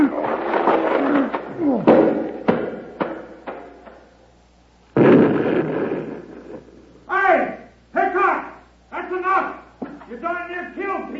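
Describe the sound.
Rumbling crashes of rocks rolling down a mountainside, two loud, noisy bursts of tumbling impacts, followed by several short shouting voices.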